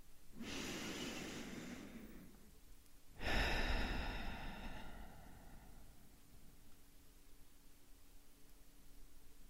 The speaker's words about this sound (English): Let's take a deep breath in and continue.